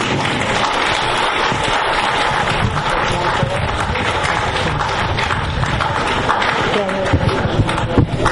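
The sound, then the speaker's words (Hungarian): Audience applause welcoming the president of Krisna-völgy back onto a stage to lead a wedding ceremony: dense, steady clapping that stays loud and even throughout. “Kérem, fogadjuk őt nagy tapsal.”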